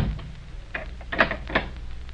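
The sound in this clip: A door is closed and its bolt shot home: a few soft knocks and clicks spread over about a second and a half, with quiet background in between.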